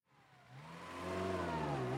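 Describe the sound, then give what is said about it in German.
A car engine as the car pulls off the road into a petrol station, a mid-pitched hum that swells, rises slightly in pitch and then holds steady. “wir fahren mal rechts raus an die Tankstelle”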